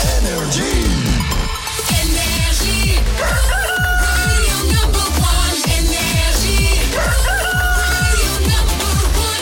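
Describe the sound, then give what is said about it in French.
A rooster crows briefly at the start, signalling six in the morning, then loud, dense music with a steady driving beat takes over and carries on to the end. “Il est 6h. Qu'on amène le coq et qu'on démarre cette journée.”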